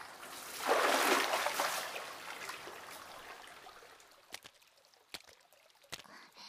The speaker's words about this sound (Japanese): このままだとお湯汚しちゃう。一旦出よっか。